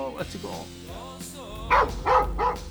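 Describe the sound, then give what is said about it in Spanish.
A human voice imitates a dog's strange, fearful, half-hearted bark, producing a few short, loud yelp-like bursts after some softer voiced sounds. “el ladrido era como raro, era un ladrido así como por cumplir, ¿no? Es como casi con miedo”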